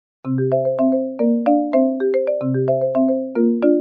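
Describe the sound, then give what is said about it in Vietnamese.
A mobile phone ringtone rings again: a loud, bright electronic melody of quick chiming notes plays through once and begins to repeat, with no voices. “Điện thoại Tần Châu lại vang lên.”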